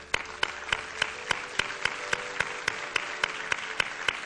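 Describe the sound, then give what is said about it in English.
A church audience applauds to welcome new members, a full wash of clapping driven by a strong, regular beat of many sharp claps that keeps a steady tempo throughout. “And so, as a church, we, we want to celebrate that with you. We want to put our hands together and tell you, with everything that we've got,”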